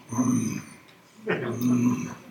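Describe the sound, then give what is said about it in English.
A human voice imitates a lion growling over its kill, with two low, rumbling growls separated by a short gap, the second longer than the first. “So you can imagine a lion who's killed the gazelle, and we've seen it many times, right? It's there going,”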